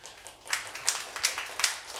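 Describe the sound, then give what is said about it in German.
Audience applause cast as a vote for a recording, beginning faint and swelling partway in, with several rhythmic peaks of clapping and no voices. “Sie geben Ihre Stimme bitte durch möglichst viel oder möglichst wenig Applaus kund”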